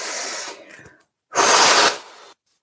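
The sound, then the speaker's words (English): A deep breath during a guided relaxation exercise: a breathy inhale, a short pause, then a louder, noisy exhalation lasting about a second before falling silent. “Then we're going to have a deep breath and a nice, long, slow exhalation.”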